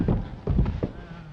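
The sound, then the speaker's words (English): Horses clip-clopping: a few muffled, low hoofbeats in an uneven rhythm, moderately loud over faint background noise. “Horses.”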